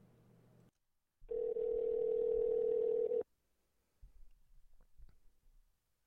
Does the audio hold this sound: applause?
no